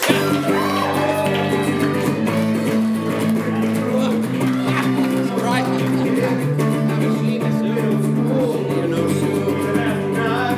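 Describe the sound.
An audience at a comedy show at the Pit applauds and cheers as a comedian is introduced, a loud, continuous wash of crowd noise with whoops and shouts rising through it.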